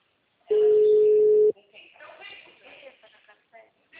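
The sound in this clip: A telephone tone sounds while a call is being placed: a single steady, mid-pitched tone holds for about a second and then cuts off, followed by faint, muffled voice-like sounds.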